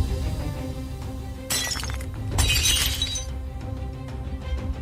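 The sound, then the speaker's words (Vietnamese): Glass bottle cracking and shattering: a sharp crack, then a louder, bright breaking crash with scattering tinkles, over a steady low background drone. “Đúng vào lúc cái chai thủy tinh kêu lên một tiếng tách, ở trên thân chai xuất hiện những vết rạn nứt, rồi cả cái chai vỡ tung.”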